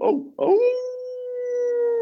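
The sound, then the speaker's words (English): A man's voice imitates a hound dog howl: a short yelp, then a long sustained howl that slides upward and holds a steady, clear tone until the end. “So you just go ahead and give us your best old hound dog howl to close us out today.”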